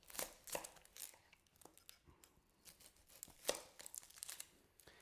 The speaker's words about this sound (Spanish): Troceamos todos los ingredientes. El siguiente ingrediente podría ser la cebolla. Vamos a trocear un trozo de cebolla.